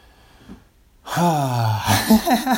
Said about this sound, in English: I just take a deep breath.